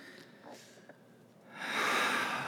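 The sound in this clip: A person breathing out slowly: quiet, breathy air noise that swells into a fuller, airy rush in the second half.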